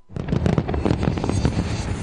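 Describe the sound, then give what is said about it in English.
Fireworks burst over a harbour at Chinese New Year in Hong Kong, a dense, continuous run of loud crackling bangs and pops with no pauses. “Residents in Hong Kong rang in the Chinese New Year Saturday with an extravagant fireworks display over Victoria Harbor.”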